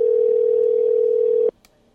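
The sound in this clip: An unanswered telephone keeps ringing, heard as a steady, mid-pitched electronic tone held for about a second and a half before stopping abruptly, followed by a faint click.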